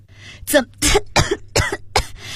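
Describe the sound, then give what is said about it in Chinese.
Harsh coughing after nearly choking, a quick series of several sharp, explosive bursts, each separated by a short gasp and falling unevenly in strength. “差点呛住，咳嗽了起来。”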